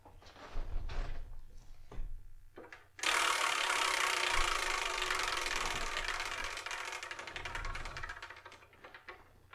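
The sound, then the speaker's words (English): A prize wheel called the Wheel of Manga spins with a few wooden knocks, then a sudden burst of rapid ratcheting clicks that runs on steadily and slowly softens as the wheel winds down. “I'm going to spin that Wheel of Manga. Whatever number it lands on, that's what we're going to review in the next episode of the Spyrokin Manga Review, episode 390.”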